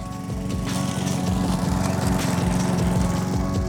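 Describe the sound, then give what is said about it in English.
A lawn mower engine runs steadily throughout, a loud, continuous droning rumble with a fast, even pulsing beat and no pauses. “Maybe you mowed your lawn.”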